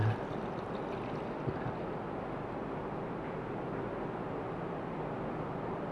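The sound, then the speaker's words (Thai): Milk pours steadily into a mixture in an even, continuous splashing hiss that holds without pause, with no talk over it. “นมกับน้ําก็ในอัตราส่วนที่ปริมาณที่เท่ากันนะครับก็นะครับเติมนมลงไปนะครับ”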